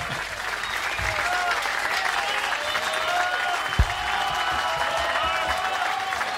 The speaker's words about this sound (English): Obviously with a live audience. 12 degrees at the moment in Candos. Okay, that's enough clapping.